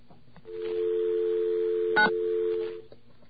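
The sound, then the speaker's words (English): A telephone dial tone hums steadily for over two seconds, broken midway by one brief keypad tone as someone starts dialing a number; no voices. “I dialed the wrong number. How do you like that? Boy, I feel silly. Let's get dialed in again.”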